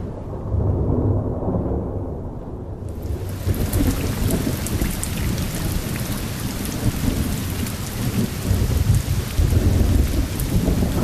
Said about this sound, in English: A heavy downpour.